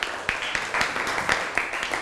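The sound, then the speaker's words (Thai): Classmates in a classroom applaud a fellow student with a fairly soft, steady clapping that carries a few sharper individual claps standing out from the mass. “เอาละครับปรบมือให้กับเพื่อนหน่อยครับ”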